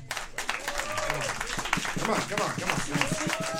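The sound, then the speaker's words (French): Audience applause for a band introduced on stage, a dense run of claps mixed with voices and cheering throughout, steady and moderately loud with no clear break. “On peut les applaudir, s'il vous plaît.”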